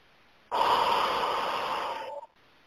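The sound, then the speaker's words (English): A single long, deep breath taken during a guided relaxation exercise: a steady, breathy rush that lasts nearly two seconds and then stops. It is heard alone against near silence. “Go ahead and take one more deep breath.”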